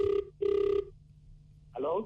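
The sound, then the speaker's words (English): A telephone rings to place a call: two short, bright ring bursts in quick succession, then a voice begins speaking. “Yeah, we need to make this call. I think it would be an incomplete Fresh Drive goodbye if we didn't make this phone call.”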